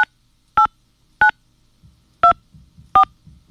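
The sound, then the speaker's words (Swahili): Telephone keypad tones as a password is entered on a phone line: five short, clear two-tone beeps at uneven intervals over a faint low background murmur. “Please enter your password followed by the pound key.”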